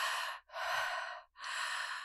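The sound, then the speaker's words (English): Continuous connected breathing, inhale and exhale flowing without pauses: three loud, airy breaths run almost back to back, separated only by brief dips in sound. “the breath has four kind of pieces to it. It's an inhale, a pregnant pause, an exhale, and an empty pause. So if you take away the pregnant pause and the empty pause, you're left with like,”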